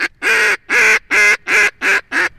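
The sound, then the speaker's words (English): A duck hunter blows a duck call in a loud high ball hailing call: six evenly spaced, nasal, raspy quacks, each about a quarter second long, in a steady rhythm with short gaps of silence between them. No voices are heard. “when you see ducks, you want to give them what they call a high ball or come look at me type call.”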